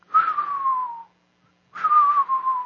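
Whistling exhale of a haenyeo diver surfacing from the sea: two long, airy whistled breaths separated by a short silence, each gliding gently downward in pitch over a breathy hiss.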